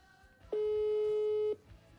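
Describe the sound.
Ringback tone of an outgoing telephone call: one steady, mid-pitched tone lasting about a second, starting and stopping abruptly, with no talk over it.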